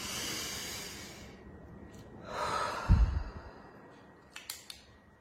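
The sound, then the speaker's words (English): A deep breath taken during guided breathing: a long, airy, rushing breath that swells and fades, preceded by a softer breath, with a few faint clicks afterward. “So take this breath with me. One more time.”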